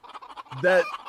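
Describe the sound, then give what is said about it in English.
Chickens from a flock give a quick run of short, soft clucks followed by one loud, harmonic squawk. The burst is brief and heard alone. “I need to just play a bunch of chickens because we just chased a bunch of chickens.”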